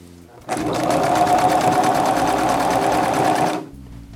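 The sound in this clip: Sewing machine stitching along the edge of a pant leg held flat: a rapid, even mechanical whir that starts abruptly, runs loudly for about three seconds and then stops.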